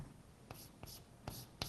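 Handwriting of an address makes a few short, scratchy pen strokes separated by brief pauses, faint and close.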